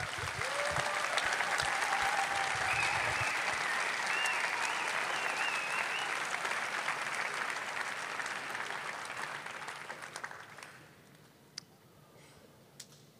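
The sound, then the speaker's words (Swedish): Audience applause at a church conference, following a prayer. Dense, even clapping holds loud for about ten seconds, then thins out to a few scattered claps. “De är värda en applåd till.”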